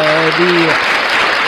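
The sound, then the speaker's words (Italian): An applause sound effect, a steady dense wash of clapping noise that holds at an even level to the end, with a couple of held tones sounding over its opening moments. “facciamo un applauso allora pure a questo punto”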